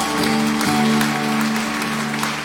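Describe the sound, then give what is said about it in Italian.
An audience at a religious service applauds, a steady wash of clapping that fills the couple of seconds at an even, moderate level. “Facciamo un grande applauso al Signore Gesù”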